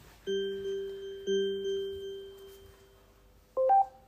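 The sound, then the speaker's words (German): A smart speaker places a phone call: two long, steady dial tones, then a brief pause and a short rising two-note chime. “Alexa, ruf den Osterhasen an. Der Osterhase wird angerufen.”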